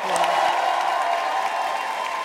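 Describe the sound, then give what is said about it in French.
Audience applauding and cheering for a first-time guest at a live evening show, a continuous layer of clapping mixed with crowd noise that stays fairly even from start to finish. “Faites du bruit pour Julien un petit peu.”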